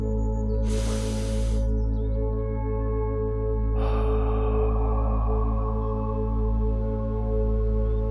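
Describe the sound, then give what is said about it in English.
Two long, airy breaths, taken slowly and deeply as a calming exercise. Each is a soft, rushing swell of air over a steady, low tonal drone, with no talking. “Take a couple of deep and calming breaths with me.”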